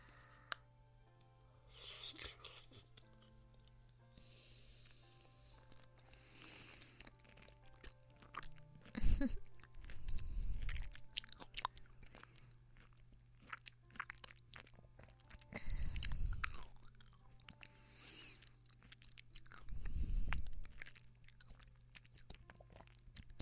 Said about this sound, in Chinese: 那这一口啊，我吃掉，不给你吃